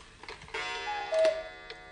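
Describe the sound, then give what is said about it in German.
A wooden cuckoo clock strikes half past twelve, giving a few sustained, ringing tones with a brief high whistling note near the middle, alone and at moderate loudness. “Mei, schon halb eins. Herrschaft, bin ich jetzt erschrocken. Fällt einfach die Uhr von der Wand. Ja, wie kann denn sowas passieren? Die schöne Kuckucksuhr. Der ganze schöne Holzkasten ist auseinander.”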